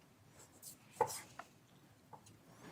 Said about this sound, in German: Sieht auch wirklich sehr hübsch aus, was du da so dünn absäbelst.